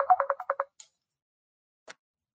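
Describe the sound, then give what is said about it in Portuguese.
A mobile phone ringtone announcing an incoming call, six quick rhythmic tone pulses, followed by two faint clicks and then quiet. “está me ligando aqui”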